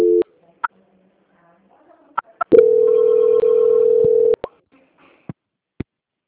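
Telephone line tones while a call is transferred: a brief steady tone and scattered clicks, then one long, even, mid-pitched tone of about two seconds, followed by a few more sharp clicks.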